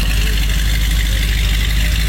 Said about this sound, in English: just a classic sound there, you know? Look, when he left our house after all those hours, and I thought you were going to cry, he revved it, of course, on our street. See ya. Yeah. This is a 66 Corvette